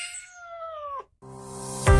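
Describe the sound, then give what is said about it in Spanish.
A cat meows in one drawn-out, tonal call about a second long, heard in an advert for a cat café offering kittens for adoption. A short silence follows, then a steadier sustained sound that swells at the end. “puedes llevar a casa a un mejor amigo adoptando a uno de nuestros gatitos.”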